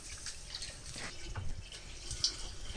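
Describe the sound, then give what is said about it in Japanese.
Water draining off washed rice, soft trickling and dripping, faint and continuous with a few small splashes. “お米を優しく揉むようにして洗います。優しく洗ったら水気をしっかり切ります。これを2、3回繰り返します。”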